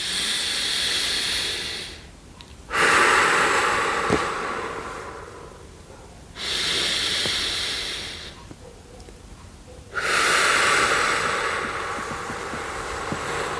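Slow, deep breathing in and out during a relaxation exercise: long, airy hissing swells of breath separated by short pauses, steady and fairly loud, with no voice over them.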